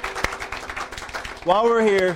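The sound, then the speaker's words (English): A church audience clapping hands, many quick overlapping claps in a lively patter that stop abruptly as a voice begins speaking. “Hallelujah. Give the Lord a hand clap. I love it.”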